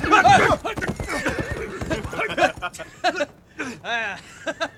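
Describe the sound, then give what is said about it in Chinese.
A war horse gives a shrill, wavering whinny, mixed in with talking voices. “忽然战马长嘶一声，原地蹦跳起来，发狂一般颠簸着。”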